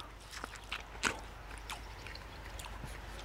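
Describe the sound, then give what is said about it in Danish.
A soft, faint bite into a very red, ripe Honeoye strawberry picked in a strawberry field, a brief moist crunch with a few small wet clicks around it against quiet background noise. “jeg har et meget, meget rødt jordbær i min hånd. Et honey eye jordbær har jeg fået fortalt. Det er en ud af 9 sorter på den her mark. Jeg tænker lige, vi skal prøve at smage.”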